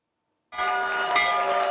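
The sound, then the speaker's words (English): Opening bell ringing for Wall Street trading, sounded at the stock exchange. Half a second of silence, then a loud, steady metallic ring starts abruptly and holds without a break to the end, with no talk. “U.S. President Donald Trump rang the opening bell on Wall Street from the Oval Office”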